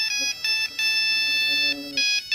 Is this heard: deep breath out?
no